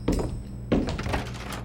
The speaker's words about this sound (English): Matt slammed the door behind him